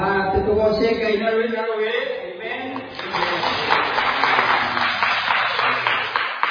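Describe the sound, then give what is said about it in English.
Congregation clapping during a church service: a voice speaks for the first few seconds, then a dense burst of many claps starts and carries on steadily to the end. “Can I get a clap?”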